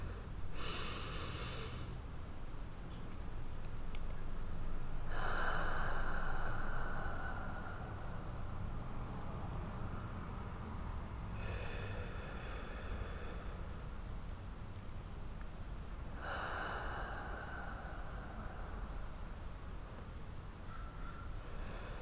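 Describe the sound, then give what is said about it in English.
Slow, deep breaths from a guided breathing exercise, with a few long, airy inhale and exhale cycles rising and fading at an even pace over soft background hiss. “So let's breathe.”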